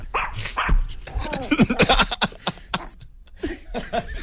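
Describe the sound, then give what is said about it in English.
A shih tzu barks in a quick run of many sharp, high yaps and yips with short pauses between the bursts. “do yourself a favor, Janoris Jenkins, and get that shih tzu out of here”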